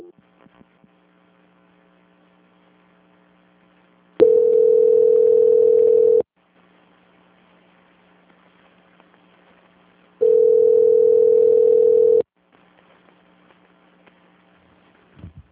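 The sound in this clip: Telephone line tone during a call transfer: two steady, loud tones, each lasting about two seconds and separated by several seconds of quiet line with a faint hum underneath.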